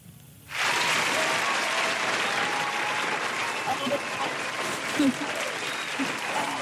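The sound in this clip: A recorded applause sound effect plays from a button. It bursts in suddenly after a brief quiet moment, then holds as dense, steady clapping at an even level to the end.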